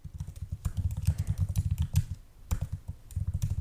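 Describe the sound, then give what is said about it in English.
Rapid typing on a computer keyboard: a dense run of clicking keystrokes, a short pause, then more quick bursts of keys. “I can't find it now, so I'm just going to type in”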